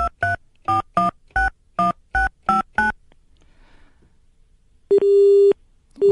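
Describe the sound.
Telephone busy signal after a caller is lost, preceded by nine quick, evenly spaced keypad dialing tones, a short pause, then a loud steady tone that cuts off and starts again.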